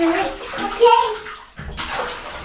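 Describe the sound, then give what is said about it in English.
A child splashes water in a bathtub, with sloshing and splashes running throughout. Voices talk over the water, including a child's. “Don't like put the water on his face. So don't splash on his face. I keep telling you that. So just splash.”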